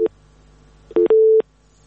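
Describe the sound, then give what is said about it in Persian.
A busy tone sounds after a dropped phone call, made of a few steady, mid-pitched electronic beeps of uneven length with short silences between them. “بله خب فکر کنم اینا هم تماسشان قطع شده”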